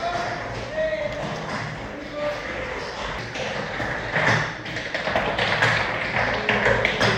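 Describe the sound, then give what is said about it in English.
Rapid, dense heel-and-toe stamping from flamenco dancers' footwork in an advanced class in Madrid, a continuous machine-gun-like rattle of sharp taps that grows somewhat louder toward the end. “an advanced flamenco class. It's like machine gun fire. Oh, here we go. If I walk up here, you're going to hear exactly what I was talking about.”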